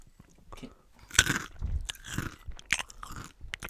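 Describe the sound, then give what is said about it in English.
Crunchy bites and wet chewing during an eating ASMR session, with many close, crisp crunches at an uneven rhythm and no talking. “An eating ASMR session.”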